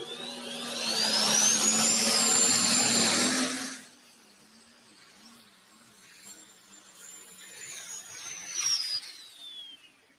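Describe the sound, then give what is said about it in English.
A diesel super stock class truck in Rock Valley, Iowa, roars loudly and steadily with a high whine that climbs and then holds. The roar cuts off abruptly partway through, then a fainter roar and whine build again and trail off. “Don't you know that the EPA loves these diesel super stock classes?”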